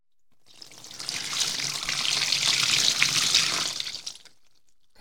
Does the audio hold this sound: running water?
yes

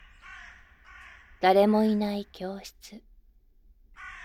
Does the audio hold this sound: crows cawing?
yes

